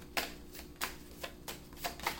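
Tarot cards being shuffled by hand: several soft, quick riffling bursts in a loose rhythm, faint and alone.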